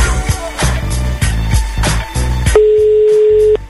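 Ringing tone of an outgoing telephone call waiting for an answer: one steady, mid-pitched tone lasting about a second near the end, over a loud, pulsing rhythmic beat.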